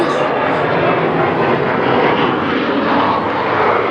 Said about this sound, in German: Warten wir erstmal den Flieger ab.